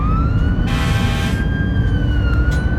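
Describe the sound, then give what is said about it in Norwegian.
Fire engine siren blaring at full volume as the truck races toward the sea; a loud, sustained high wailing tone with slight pitch drift runs continuously over a low rumbling background. “hopper inn i brannbilen. Med fulle sirener kjører de mot sjøen.”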